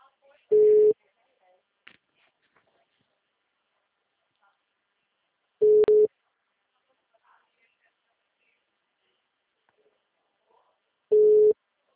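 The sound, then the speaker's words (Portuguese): Phone line tones repeat while someone tries to call a person back: three short, identical mid-pitched beeps, spaced about five seconds apart, with near silence between them. “Tô tentando retornar pra ele. Tentando retornar, é porque no WhatsApp dele tá 1V.”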